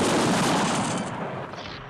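Rifle volley from a firing squad at a jungle fortress, a loud dense crack of shots fired together, followed by a long rumbling decay that slowly fades.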